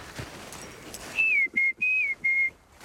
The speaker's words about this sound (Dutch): Kijk, ze fluiten terug.